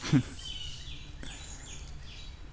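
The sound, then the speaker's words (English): Small birds calling in agitation around an owl: a few faint, repeated high downward-sweeping chirps over a steady low background hum. “And there's a lot of little birds who are getting upset now.”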